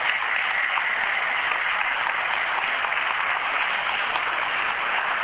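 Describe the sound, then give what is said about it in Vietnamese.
An audience applauding inside a church to welcome a returning member: loud, dense, continuous clapping that holds an even level from start to end, with no voices standing out. “tất cả chúng ta vào trong nhà thờ cho một tràng vỗ tay thật lớn để chúng ta đón người anh em của chúng ta. Vỗ tay lớn lên.”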